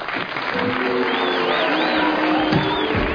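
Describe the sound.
Audience applause and cheering greet two detectives, a dense, steady wash of clapping mixed with whoops and a wavering whistle running through the middle, loud throughout.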